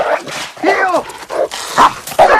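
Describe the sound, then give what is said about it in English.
A dog barks and yips while chasing a person back and forth across a backyard, giving a handful of sharp, excited barks and whines in short bursts separated by brief pauses. “The dog chases him back and forth across the backyard.”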